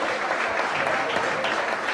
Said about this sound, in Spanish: Gonzalo Serrano con esta ovación que le hace la afición